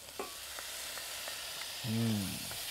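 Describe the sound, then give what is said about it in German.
Pine nuts and cooked vegetables roast in a pan with a steady, faint sizzling hiss, broken by a few soft clicks of stirring. “Pinienkerne mitrösten, klein wenig noch. Dann unser Gemüse noch mal dazu. Unser gegartes.”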